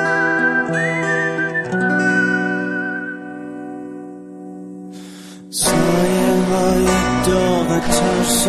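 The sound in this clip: A man whistles a clear, high, sustained tune with held notes that gradually fade, then a louder, dense wash of sound fills the last few seconds.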